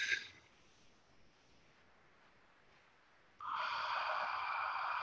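A deep breath drawn in during a guided relaxation exercise: after a stretch of near silence, a steady, fairly loud breathy rush starts about two-thirds of the way through and holds to the end, with no talking.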